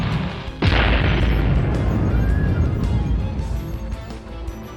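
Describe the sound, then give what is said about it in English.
A fireball shot at point-blank range during a monster battle: one sudden heavy boom, then a loud, rumbling roar that lingers and slowly fades over several seconds. “Double G shot him point blank with a fireball”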